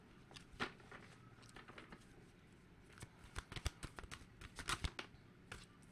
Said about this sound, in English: Let's get some archetypes. Get some archetype cards. We could do two. Let's do two.